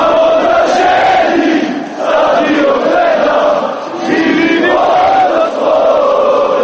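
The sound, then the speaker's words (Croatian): Crowd singing from football fans and players celebrating their club's league title with a championship song in Sarajevo's Grbavica neighbourhood. Many voices chant together in a loud, continuous mass that dips briefly in volume a few times. “Šampionska pjesma navijača i fudbalera ovog tima orila se sinoć sarajevskim naseljem Grbavica.”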